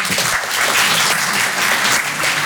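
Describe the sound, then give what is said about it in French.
An audience at a live comedy show applauds with dense, loud clapping that holds steady from start to finish. “Applaudissez ceux qui aiment pas travailler.”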